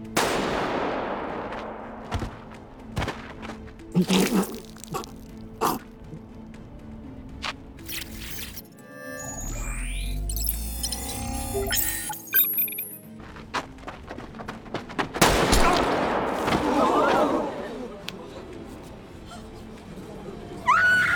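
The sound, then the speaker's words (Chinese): Gunfire rings out in Squid Game as eliminated players are shot during a deadly children's game. Sharp, scattered shots crack out among voices and other chaotic noise. “随着淘汰者被击杀，恐慌在人群中炸开，玩家们本能的逃往入口，可迎接他们的只有无情的子弹和封闭的铁门。”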